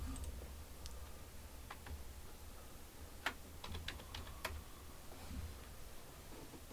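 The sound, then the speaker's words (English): Someone types on a computer keyboard: faint, sparse key clicks, a few slightly sharper taps in the middle, over a low steady background hum. “I was going to tell you, just type in NFL.”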